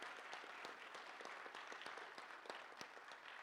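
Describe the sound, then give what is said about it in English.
A church audience applauds to welcome a new member, producing a steady, faint wash of many hands clapping that continues throughout without a break. “All right, let's give him another hand and welcome him into our church family.”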